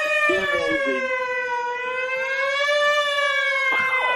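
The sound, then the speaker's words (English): An ambulance siren sound effect, the "Whamulance", sounds as a loud, steady wailing tone that rises and falls slightly, with a few brief extra noises near the start and end. “I hear coming down the street. Oh, crap, it's the Whamulance.”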